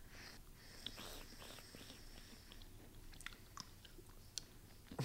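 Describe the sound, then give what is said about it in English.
Quiet chewing of a flat, chewy fruit-leather-like Chinese sweet disc: soft, moist mouth sounds with a few sharper clicks scattered through, faint and without talk. “I couldn't bite through it. It's not the texture I expected. It tastes like fruit leather.”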